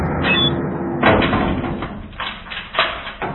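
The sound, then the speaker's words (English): A prison cell door slams shut with a heavy, sharp bang, followed by a few smaller thuds and rattles over a low rumbling background. “that sound is what over 700,000 pot smokers hear each year. The slamming of the cell door.”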